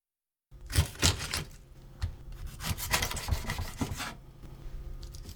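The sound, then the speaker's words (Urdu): A knife opens a fish butterfly style after it has been scaled and its head cut off, giving a run of rough scraping and rubbing strokes in uneven bursts, with no voices. “اس کے بعد سر کو اس کی نچلی طرف سے کاٹ دیجیے۔ اب ہم اسے بٹر فلائی انداز میں کھولیں گے۔”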